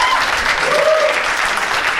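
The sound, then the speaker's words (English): Audience applause: loud, thick clapping from a crowd that stays constant throughout, with a faint voice briefly rising within the din. “Give all you guys a round of applause.”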